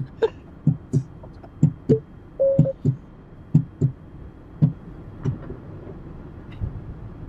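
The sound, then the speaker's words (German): Robots removing an electric car's battery at a battery swap station make many irregular mechanical knocks and clunks over a steady low hum, with a brief whine partway through. “So, jetzt wird er weggebracht, der Akku. Mhm. Und wir fahren wieder ein Stück nach unten. Ja, jetzt holt er gleich den anderen Akku.”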